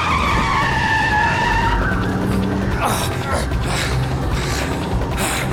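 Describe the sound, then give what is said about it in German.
A car's tires skid and squeal as it takes a curve. A loud, continuous screech runs over a rough engine roar for the whole stretch. “Festhalten, ich gehe in die Kurve.”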